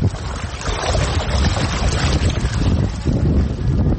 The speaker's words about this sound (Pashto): خو تاسو به دغه د اوبو غږ اورئ زه ورنږدې کېږم